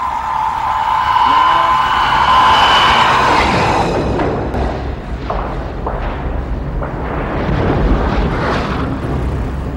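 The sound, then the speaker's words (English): Torpedo impact explosion: a sustained whining tone gives way midway to a loud, deep, rolling rumble that keeps churning until the end. “Torpedo impact.”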